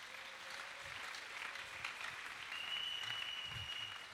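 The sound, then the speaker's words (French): A church audience applauds with continuous, even clapping that stays fairly faint and steady for several seconds, with no distinct cheering standing out. “Ceux qui ne sont pas nés prématurés, acclamez le Seigneur.”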